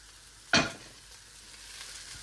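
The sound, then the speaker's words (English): Cooled cooked rice hits a hot pan with a sudden loud burst of sizzling, which quickly settles into a quieter, steady hiss. “And we're going to re-add the rice to the pan. So I'm going to add my rice now.”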